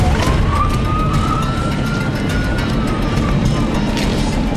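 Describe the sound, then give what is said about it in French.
A police car siren wails as the police join in during a driving school exercise on a track, its single tone climbing slowly and then sagging back down, steady and fairly loud over a constant rumble of car noise. “On a une police! La police se met de la partie. Viens-t'en, la police, viens-t'en.”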